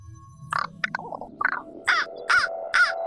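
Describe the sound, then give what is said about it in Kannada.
A crow caws from a bare branch of a tree, giving a series of harsh, rasping calls that grow stronger toward the end, closing with three loud, drawn-out caws. “ಮರದ ಮೇಲಿನ ಪಕ್ಷಿಗಳನ್ನೆಲ್ಲ ನೋಡುತ್ತಾನೆ ಬೋಳದ ಒಂದು ರೆಂಬೆಯ ಮೇಲೆ ಕಾಗೆ ಕುಳಿತಿತ್ತು”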